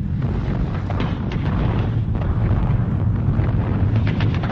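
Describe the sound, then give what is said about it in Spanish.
Bombs exploding in a daytime Japanese air raid on Chungking, China, in August 1942 make a dense, continuous roar and heavy low rumble, steady and loud throughout with no clearly separate blasts. “Un bombardeo diurno de la Fuerza Aérea Japonesa.”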